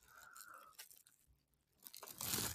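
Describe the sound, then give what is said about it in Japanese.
Soft crunching and chewing while eating a spam rice ball, a few irregular faint bites and mouth sounds, with a louder crunchy burst at the end and no talk. “そしてスパム握りいただきます。”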